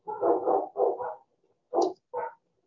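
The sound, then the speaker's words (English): A dog barks in short, loud bursts: a quick run of barks, then two more separate barks after a brief pause, with no voices over them. “I don't know if you hear that, the barking in the background. Please ignore it.”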